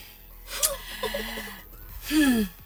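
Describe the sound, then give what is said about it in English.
Heavy breathing comes in a couple of loud, sharp gasping breaths, one early and one near the end, with a rough voiced edge and quieter breath noise between them. “Why do you breathe like that?”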